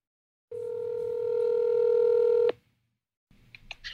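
A telephone being dialed to place a call: one steady electronic tone holds for about two seconds, then cuts off. After a brief silence, a few faint clicks and a low rumble follow.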